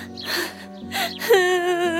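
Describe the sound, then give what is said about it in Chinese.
Crying of a child character in a fairy tale: a few breathy, voiced sobs and a gasping intake, ending in a sustained, wavering wail. “两只眼，别哭了”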